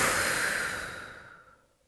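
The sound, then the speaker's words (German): A single long breath out, a soft, breathy rush of air that starts fairly loud and steadily fades to nothing over about two seconds, heard alone. “Und jetzt atme ich aus.”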